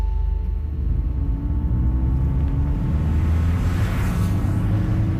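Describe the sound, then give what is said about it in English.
Steady road rumble of a car driving down a freeway from Los Angeles toward Long Beach, California: a continuous low drone with engine hum and tire noise, with no other sounds over it. “I'm driving down the freeway from my house in LA to the satellite city of Long Beach, California.”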